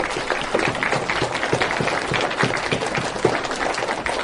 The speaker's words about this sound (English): So big round of applause again for the poets for their amazing job that they do.